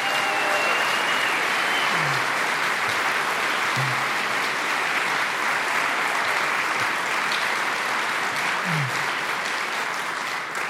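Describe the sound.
Sustained audience applause welcomes an author to the stage, a dense, even roar of clapping that stays loud and steady for the full length, with no voices over it.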